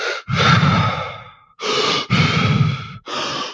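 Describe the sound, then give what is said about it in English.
Deep, rapid hyperventilating breaths are taken as a breathing exercise. Loud, rushing inhales and exhales follow one another in quick succession with only brief gaps, and no one talks. “Where you hyperventilate, which are not like panicky hyperventilations, but deep, rapid breaths. So it sounds something like this.”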